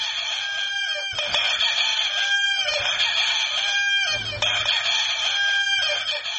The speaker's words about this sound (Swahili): kumefanyika mashindano ya kuku anayeweza kuwika mara nyingi zaidi mfululizo kuliko wengine wote